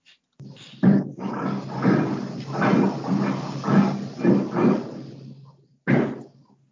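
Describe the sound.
A person's stomach growls in a series of low, rough gurgling rumbles that swell and fade in uneven waves, then one last separate burst after a short pause.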